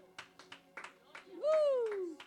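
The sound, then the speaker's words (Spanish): A church audience claps in a steady rhythm of crisp hand claps, joined midway by a loud sustained tone that bends upward and then slowly falls. “Dar un aplauso al Señor.”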